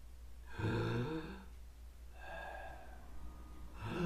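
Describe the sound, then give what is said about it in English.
Deep breaths taken in and out by a person, quiet and slow, with a few long airy inhales and exhales separated by short pauses. “Let's all take three big breaths and think of three good things.”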